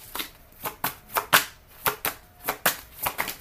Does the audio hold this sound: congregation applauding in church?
no

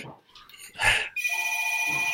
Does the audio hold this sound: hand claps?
no

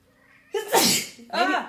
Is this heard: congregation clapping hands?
no

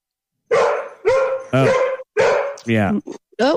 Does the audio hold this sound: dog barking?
yes

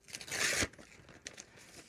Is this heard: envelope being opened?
yes

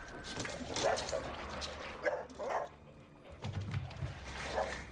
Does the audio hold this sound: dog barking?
yes

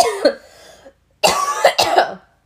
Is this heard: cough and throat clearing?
yes

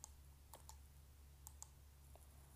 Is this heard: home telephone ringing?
no

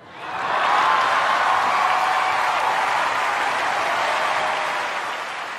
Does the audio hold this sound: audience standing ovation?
yes

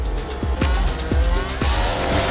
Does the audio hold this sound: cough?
no

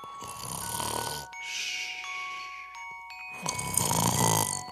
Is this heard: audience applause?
no

